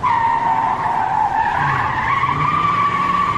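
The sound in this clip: Car tires skidding and squealing under fast driving: a loud, sustained screech that holds steady for the whole stretch and shifts slightly upward in pitch partway through, with no voices.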